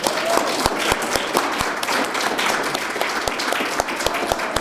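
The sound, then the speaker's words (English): Audience applause at a poetry event: dense, steady clapping fills the whole stretch at an even loudness, with a few sharper individual claps standing out from the mass. “a big round of applause for Natalie.”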